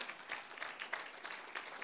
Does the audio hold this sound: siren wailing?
no